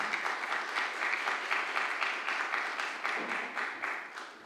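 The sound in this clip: Audience applause welcoming a speaker after a Bible reading: a dense, steady wash of many hands clapping that holds evenly throughout and eases slightly at the very end, with no voices over it.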